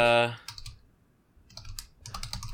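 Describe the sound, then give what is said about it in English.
Typing on a computer keyboard while searching on eBay: a short flurry of light clicks, a pause, then a longer steady run of keystrokes. “I'll type in Mean Cuisine.”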